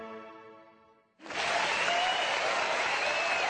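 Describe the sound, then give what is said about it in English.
Audience applause welcoming Ben Stein bursts in abruptly after a fading, sustained musical chord, then holds as a dense, loud, steady clatter of many hands to the end. “Without further ado, please join me in giving a warm welcome for Mr. Ben Stein.”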